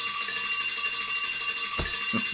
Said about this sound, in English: That's my alarm telling me that I've gone too long